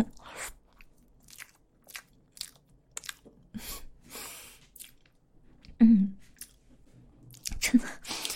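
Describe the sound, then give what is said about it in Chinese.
Biting and chewing on a homemade dish made with mango: soft, wet mouth sounds broken by a few sharper, crunchy bites, fairly quiet overall, with no talking. “尝一口，还放了芒果，真好吃。”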